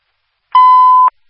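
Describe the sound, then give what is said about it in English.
A fire dispatch radio sends a nightly test tone: a single steady, high-pitched beep of about half a second, clean and alone, starting and stopping abruptly. “For all listening fire agencies, these are your nightly test tones. Test tones only.”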